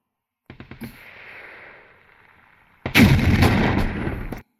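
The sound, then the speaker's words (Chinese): Cannon shell fired and exploding: a few quick sharp clicks, then a steady hiss, followed by a loud roaring blast that holds for a moment before cutting off abruptly. “你这是什么炮弹，轻轻一握就爆炸了呢。”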